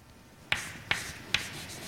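Writing an equation on a board during a physics lecture: three sharp taps at an even pace over a faint steady hiss.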